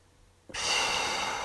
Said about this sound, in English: Breathe in and out. Nice big deep breath in.